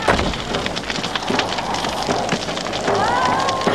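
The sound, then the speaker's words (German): A house on fire burns in a dramatized scene, a dense, continuous crackling and hissing roar of flames that stays loud and steady throughout. “Das Haus brennt.”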